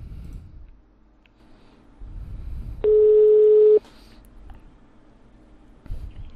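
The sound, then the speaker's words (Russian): A telephone ringback tone while a call is dialed to a debt collector: a single steady, low beep lasting about a second, standing out over quiet background hiss and faint clicks. “Давайте сейчас наберем, посмотрим, ответят ли они. Вот я набираю.”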